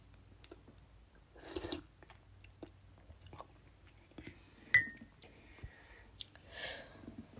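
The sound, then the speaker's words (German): Sips of strawberry-raspberry fruit tea: two soft airy slurps separated by a long quiet gap, with a few faint clicks in between. “ich nehme einfach mal noch einen Schluck.”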